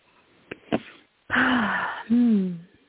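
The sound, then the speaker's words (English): A deep breath drawn in audibly with a loud, airy rush, followed by a voiced, falling exhale. A couple of faint clicks come just before it. “Good breath. That's the one.”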